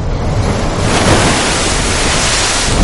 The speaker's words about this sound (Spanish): El agua avanza hacia ellos.